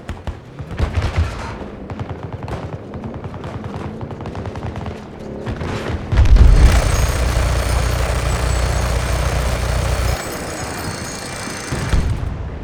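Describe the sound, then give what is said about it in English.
Gunfire and a tank blast in a war video game: rapid bursts of shots lead into a loud, heavy explosion about halfway through, followed by a sustained roaring rumble and further firing. “Oh my god, the tank just launched me into the air.”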